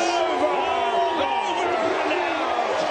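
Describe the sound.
A softball crowd cheers and whoops after a three-run hit, a loud, steady roar of many voices that holds unbroken from start to finish.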